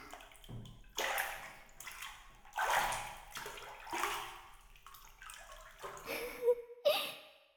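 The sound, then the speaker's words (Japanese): Bath lotion is stirred into bathtub water, making a series of irregular splashy swishes and sloshes, some louder than others, with no talking. “これを湯船の中に入れて、軽くかき混ぜると”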